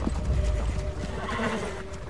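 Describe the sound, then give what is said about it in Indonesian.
Clip-clop of hooves and a horse's whinny as a fully equipped cavalry troop arrives, the hoofbeats dense and irregular from many horses moving together. “Raja Indra tampak cemas ketika melihat tamunya datang dengan pasukan berkuda yang lengkap seperti akan berperang.”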